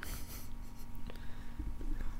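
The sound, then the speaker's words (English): A Sharpie marker draws on the skin of an arm, giving faint, scratchy squeaks and rubbing strokes at a low, fairly even level throughout. “Did you just draw a sperm on your arm with a Sharpie?”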